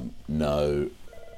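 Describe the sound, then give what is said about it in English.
A telephone ringtone interrupts a recorded discussion, sounding as one loud, sustained, harmonic ringing tone of about half a second, followed by faint, quieter noises. “my phone's ringing.”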